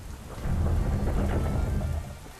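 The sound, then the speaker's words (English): Steady rain hisses through a thunderstorm while a deep rumble of thunder swells early, rolls on, then fades toward the end. There are no voices. “Her clothes were wet, and her hair was messy from the rain.”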